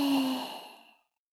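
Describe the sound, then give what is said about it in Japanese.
A single slow exhale during a guided breathing exercise: a breathy, voiced sigh of about one second that starts fairly strong and gradually fades into silence. “はい、吸って。一秒止めて、はい、吐いて。”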